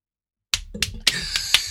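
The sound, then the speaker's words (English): Hands slapping knees as an improvised sound effect: after a short silence come five sharp, dry slaps in a quick, slightly uneven rhythm, each cut off fast. “By slapping your knees like, oh, all right, there you went. Who's your Foley guy?”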